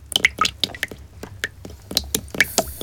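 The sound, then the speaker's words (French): Water runs over hair during a wash at a hairdresser's, making many irregular wet squishes and small dripping clicks. The sounds are moderately quiet and uneven in rhythm. “Ferme les yeux. Écoute. Tu entends le bruit de l'eau qui coule sur les cheveux?”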